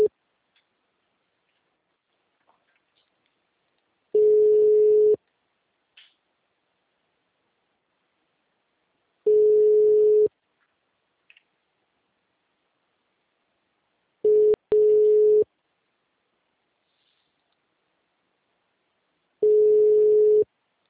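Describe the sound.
A telephone ringing tone while waiting for someone to answer: four steady mid-pitched tone bursts of about a second each, spaced roughly five seconds apart with near silence between, the third briefly broken.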